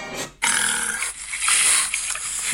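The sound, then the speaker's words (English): A voice imitates a cheeky wild boar grunting, with a loud, rough, growly snorting that starts with a short grunt and then runs on in a sustained raspy burst. “how this may sound. In Berlin, boar running off with man's laptop, and a little bit of a cheeky boar, to say the least.”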